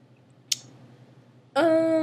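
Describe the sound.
One crisp mouse click on a link, sharp and brief against near silence, followed about a second later by a loud sustained tonal sound with rich overtones.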